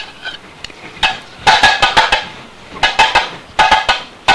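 A knife or cleaver chops through hard meat bone, with the piece turned over between blows while preparing minced meat: many loud, sharp impacts in irregular clusters with short pauses between the bursts.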